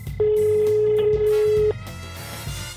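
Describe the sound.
A telephone being dialed to make a call: a steady, pure mid-pitched line tone sounds for about a second and a half, then cuts off, over a low background murmur.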